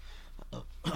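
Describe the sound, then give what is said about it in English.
A person's burp, short and throaty, with no talk around it. It ends in a louder, low, rough burst. “excuse the burp there”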